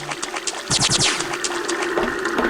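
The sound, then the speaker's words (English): Water jet streams in a video game level give a loud, steady gushing hiss with rapid pulsing surges, alongside sustained tones throughout. “I like the jet streams, but they make the level so freaking hard.”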